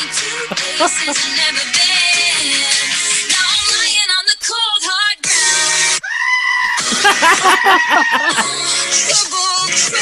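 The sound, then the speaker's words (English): A goat screaming in loud, strained, human-like bleats, several drawn-out wavering cries with brief gaps between them, filling the whole clip amid dense sound. “I actually need to see the goat doing it, but as well for the comic effect, the goat opening its mouth and doing that big scream.”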